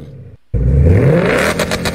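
A car engine slammed against the rev limiter roars loudly, drops out for a split second, then surges back with a climbing pitch and ends in a rapid stuttering bounce.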